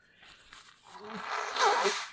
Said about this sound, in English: I'm sorry, bro. I'm blowing me nose.